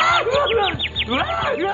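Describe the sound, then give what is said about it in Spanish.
Small bird chirping in a rapid run of many short, high, arching chirps that rise and fall in pitch, repeating almost without pause over a busy background. “¡Un pajarito!”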